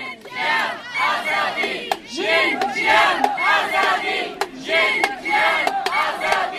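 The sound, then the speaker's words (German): Around 900 demonstrators in Munich chant at a march on the International Day against Violence against Women. The many voices repeat rhythmic phrases in loud waves, punctuated by a few sharp, percussive hits. “Am vergangenen Freitag, dem Internationalen Tag gegen Gewalt an Frauen, demonstrierten hier in München ca. 900 Menschen für eine Welt, in der Frauen sicher und angstfrei leben können.”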